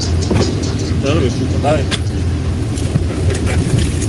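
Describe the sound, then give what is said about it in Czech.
A car engine runs steadily with a low, constant rumble during a police traffic stop while the driver refuses to switch off the vehicle; voices talk over it. “Tak si vypněte vozidlo. No nebudu si vypnout vozidlo.”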